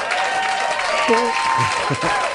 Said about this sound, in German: Dann kriegst du hier noch einen Applaus.